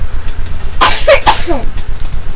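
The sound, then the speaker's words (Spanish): A few quick, sharp coughs from a young daughter in a short cluster, loud, harsh and breathy, with quiet background between them and no talk. “Esa fue la tos de mi hija, para que vean que no es mentira, no estoy inventando”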